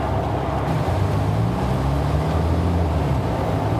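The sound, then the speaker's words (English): Engine rumble and rushing wind come from a convertible car racing through deserted Honolulu city streets, a continuous, loud, even roar with no voices. “The convertible races through deserted Honolulu streets, headed for the North Shore Highway.”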